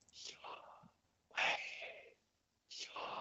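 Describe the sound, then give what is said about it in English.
A voice imitates breathing with three soft, airy, whispered exhalations separated by short pauses. “So it was meant to imitate and replicate breath. So it would sound like this.”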